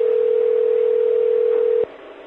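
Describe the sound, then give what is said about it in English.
Telephone ringback tone while calling a cell phone: a single steady, loud, mid-pitched tone holds for nearly two seconds, then cuts off abruptly, leaving faint line hiss. “Nah, but we'll call a cell phone.”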